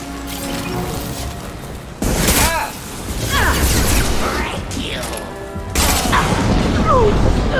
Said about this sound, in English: Oh shit, we're getting grenaded. We're getting flamethrowered.